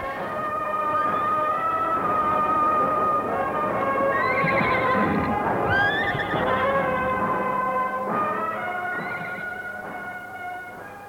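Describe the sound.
Horses neigh and whinny as riders mount up for battle, with a few high, wavering whinnies rising over a dense, steady mass of noise throughout.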